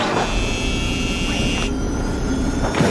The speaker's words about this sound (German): Hui, wir starten und heben ab von der Erde. Oh, jetzt fliegen wir bis über die Wolken